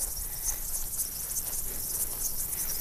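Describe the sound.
Insects chirp in a flower meadow full of butterflies and grasshoppers, a dense, steady, high-pitched trilling that continues for the whole stretch with no pauses and no voices.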